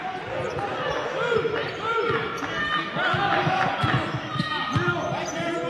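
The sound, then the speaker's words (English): A basketball dribbled on the court during a game, giving repeated thudding bounces in a steady rhythm beneath continuous talk from a commentator. “Dribbling around here are the Warriors, 28 25.”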